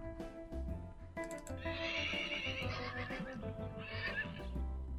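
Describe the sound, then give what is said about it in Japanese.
A horse neighs in a long, shrill whinny that surges twice and then trails off, with low thumping underneath. “馬の鳴き声なかなか聞いたことないんですよ。”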